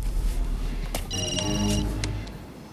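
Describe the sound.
A telephone rings on the line after a call is dialled, one short electronic warbling burst heard over a steady, noisy background rumble.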